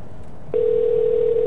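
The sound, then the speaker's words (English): Ringing tone on an outgoing telephone call: a steady, single-pitched electronic tone that switches on about a third of the way in and holds at an even level to the end, with no talking. “It's ringing. It's ringing again. Hope they're there.”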